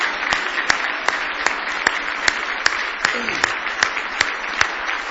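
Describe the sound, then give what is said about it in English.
An audience claps hands in praise during a church service: a dense, continuous wash of applause with a steady beat of sharper claps pulsing through it at an even tempo. “Now give the Lord a good hand clap of praise this morning.”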